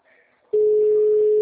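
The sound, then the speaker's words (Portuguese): A telephone call tone on a mobile phone that is giving an error. After a short faint stretch, a loud, steady, mid-pitched tone sets in and holds unbroken. “Tá chamando? Vê se tá. É o celular dele que tá dando erro.”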